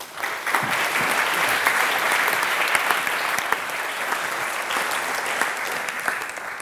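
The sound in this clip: Audience applause welcoming a speaker: dense, steady clapping from a crowd that holds an even, full level for about seven seconds without fading.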